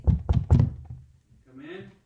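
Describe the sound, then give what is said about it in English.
Three firm knocks rap on the door of a study in quick succession, then a short voice follows after a brief gap. “So I knock on the door now.”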